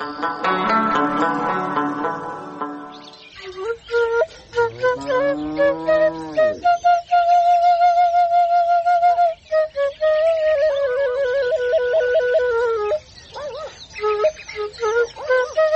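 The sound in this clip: A whistle blown in a melodic run of clear tones, loud and alone, with sliding bends in pitch, some long held notes and a few short chirps.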